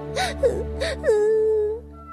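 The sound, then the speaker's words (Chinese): A young girl cries anxiously: a few short, breathy sobbing whimpers followed by one longer, drawn-out wavering wail. “小侄女担心地哭了起来。”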